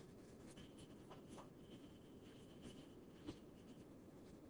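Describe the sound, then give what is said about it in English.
Faint scratchy strokes of writing on a board during a lecture, a run of short irregular scrapes over a steady soft hiss, with no voices. “One more thing. I'll write.”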